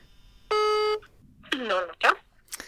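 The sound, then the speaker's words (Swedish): A phone call being placed: a single steady electronic tone lasting about half a second, then voices talking. “Men vi börjar med att ringa upp Matta.”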